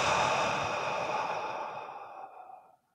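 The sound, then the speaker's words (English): A person exhales slowly after holding their breath during a guided breathing exercise, a long, soft, breathy rush of air that steadily fades to silence over about three seconds. “So inhale with me and hold and exhale”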